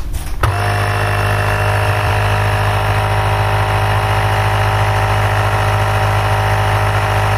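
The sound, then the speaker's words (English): Portable tire compressor, switched on with a slide switch while screwed onto a wheelbarrow tire, starts abruptly and then runs with a loud, steady mechanical buzz and hum. “I took that out and screwed it onto the tire of my wheelbarrow. And I come to that little slide switch. And when I turn on the slide switch, you will hear the compressor start.”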